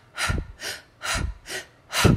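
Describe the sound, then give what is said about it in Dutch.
Deep breaths drawn in through an open mouth, each with a short exhale, in a steady run of five loud, airy breath sounds with no talk. “Dus diep inademen, kort uitademen.”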